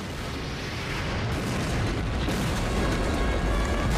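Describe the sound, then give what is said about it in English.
A rocket explosion blows up a tower as one sustained, loud, low rumbling roar that fills all four seconds with no clear break and no voices. “A rocket shoots towards the angels, who jump off the top of a high wall. The tower's blown to bits.”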